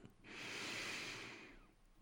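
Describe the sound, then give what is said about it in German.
A single deep, slow inhalation during a floor stretching exercise: a faint, airy hiss that swells and lasts about a second and a half before fading, with no talk. “Atme noch einmal tief ein hier”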